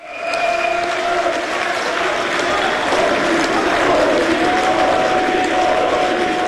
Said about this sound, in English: That's the sound of supporters of the far-right AfD celebrating a landslide election victory in the former East German state of Saxony-Anhalt.